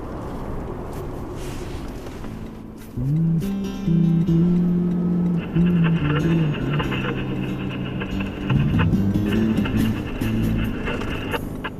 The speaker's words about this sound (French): Nous partons maintenant pour le Nord Togo, 7 heures de route de Lomé par la Nationale 1, direction Kara, deuxième ville du pays.